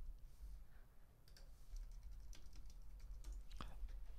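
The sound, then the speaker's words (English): Keyboard typing on a computer: faint, scattered keystroke clicks tapping along in an uneven rhythm over a low background hum. “I'll type that into chat right now.”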